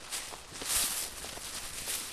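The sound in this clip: Faint footsteps cross a small residential lot with vegetation at Lake Tahoe. The soft steps fall in a steady series with light rustling between them.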